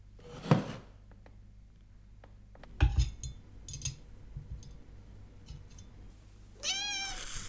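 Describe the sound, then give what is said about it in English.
A cat meows once, a clear, loud cry near the end, after a few quieter knocks and soft clatter earlier on. No one speaks. “Feline! Can nobody make a normal entrance in this place?”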